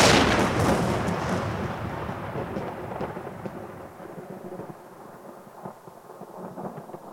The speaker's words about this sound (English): Mister, do you feel the ground moving? I think that's just the battle. No! It's something else!